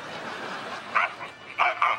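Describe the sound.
Human voice imitating a poodle puppet's barking: a few short, high yapping barks rising above a steady hiss of background noise.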